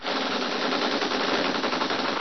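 Sustained machine-gun fire from a motor launch chasing a yacht: a dense, unbroken rattle of rapid shots at steady loudness for about two seconds. No voices.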